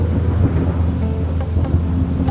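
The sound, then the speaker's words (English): A tempest sweeps over a small island: low rumbling thunder and a dense hiss of heavy rain form a continuous, loud roar throughout. “and the waves were wild and crashing. The little island of Otochich, Sveti Ivan was caught in a tempest. A tempest is a really big storm.”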